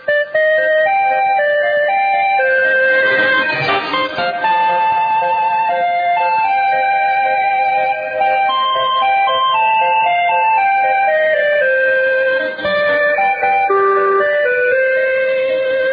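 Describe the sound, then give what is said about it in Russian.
Interval signal melody of a Swedish international radio station's old call sign, a bright, chiming tune of repeated stepped notes playing loudly and continuously on its own, with a thin, band-limited radio sound. “Радио Швеции начинает свой последний эфир старыми позывными голосом Ульфа Цедениуса”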